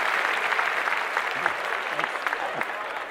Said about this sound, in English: I'm gonna clap that up again, Trey.